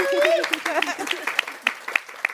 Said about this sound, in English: Can we give these authors a round of applause?